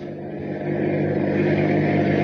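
Steady engine drone of a car driving along behind a truck, a low, even rumble that grows a little louder early on and then holds constant, with no talk over it.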